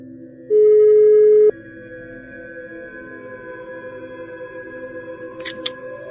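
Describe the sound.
A phone line rings as a call is placed to a guest: one steady, mid-pitched ringing tone lasting about a second, then a low steady hum with faint clicks.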